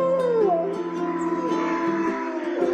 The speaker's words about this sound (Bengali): শেয়ালদের ডাক শুনে নীল শেয়াল তো একদম নিজেকে ধরে রাখতে পারলো না।